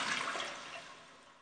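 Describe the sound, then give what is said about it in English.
A toilet flushing: a short burst of rushing water that starts loud and steadily fades over about a second and a half, with no voices. “Sorry, I had to flush my goldfish down the toilet.”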